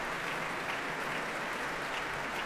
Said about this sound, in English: And a very appreciative audience once again.